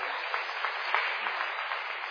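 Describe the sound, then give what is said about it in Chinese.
Applause from a church audience during a sermon: steady, continuous clapping at an even level, with no voices over it. “再重掌声给耶稣。”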